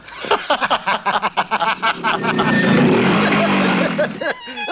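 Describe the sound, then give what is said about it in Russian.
A motorcycle brakes to a stop outside a house. Its engine rises to a broad, loud roar in the middle and then cuts away. Choppy voices are heard before the engine swells. “Около вышедшего из дома Хоботова тормозит мотоцикл.”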